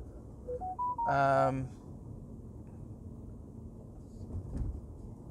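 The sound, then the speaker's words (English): A phone goes off with a few short beeps climbing in pitch, followed by a brief, louder ringing chime. A low background rumble continues after the chime ends. “I'm really sorry about the phone keep going on.”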